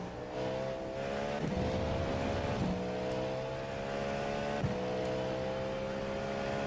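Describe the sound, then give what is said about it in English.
A GTP race car engine drives hard in a racing video game, a steady buzzing whine that climbs in pitch and drops sharply at a few gear shifts. “That's kind of why I'm driving this stinking GTP right now.”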